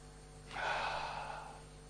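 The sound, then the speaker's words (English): A single deep breath is drawn in by someone standing, a soft airy hiss that swells quickly and then tapers slowly over about a second, quiet and alone without talk. “Now take a deep breath.”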